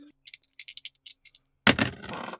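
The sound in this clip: Dice clatter across a tabletop during a game in many quick, sharp clicks, then a voice reacts loudly once they stop.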